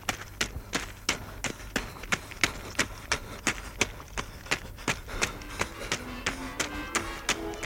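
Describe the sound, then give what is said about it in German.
Footsteps of a man running down the middle of railway tracks with a heavy brake shoe in each hand. Many quick, evenly spaced footfalls keep a steady running rhythm throughout. “In jeder Hand einen Hemmschuh läuft er dem brennenden Wagen entgegen. Er läuft mitten auf den Schienen.”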